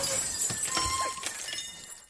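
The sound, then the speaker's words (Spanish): A glass chandelier falls and shatters inside a jewelry shop, giving a noisy crash of breaking glass with several sharp clinks and rattles scattered over a continuous clatter. “La lámpara se cae.”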